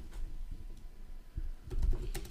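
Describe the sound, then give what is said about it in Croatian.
Faint, irregular taps on a computer keyboard that has been pushed a little out of reach, as a search phrase is typed, with sparse clicks that cluster more densely toward the end. “Malo mi je odmaknut keyboard, kao što sam rekao, pa mi je malo teško tipkati. Utipkao sam sad apartmani u Poreću.”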